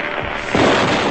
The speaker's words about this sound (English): Super Junior candle flash gun with cardboard built-in trigger release. Say cheese.